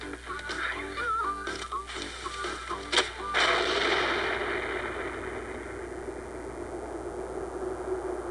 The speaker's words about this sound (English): Yeah, jam that in the gas bucket. We'll shoot fireballs at it.